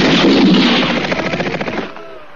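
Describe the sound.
Gunfire from a firing squad at an execution: a loud, dense volley of shots that blurs into a rapid rattling burst, then cuts off abruptly after about two seconds.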